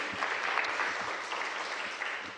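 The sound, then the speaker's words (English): Congregation applauding at a Sunday church service, a dense steady wash of many hands clapping with a few sharper individual claps, loud and continuous throughout with no talk over it. “Let's clap God for what he's going to do.”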